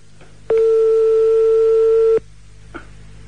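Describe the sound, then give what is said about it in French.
A telephone line signal after dialing a number: a single steady electronic tone that holds one even pitch for under two seconds, then stops abruptly, heard alone. “Je compose le numéro de téléphone en direct que tous les auditeurs entendent bien.”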